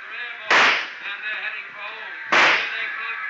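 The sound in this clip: Two sharp gunshots in a rooftop shootout from a detective drama, sounding as bright, cracking bursts with short decaying tails about two seconds apart over a steady background hiss.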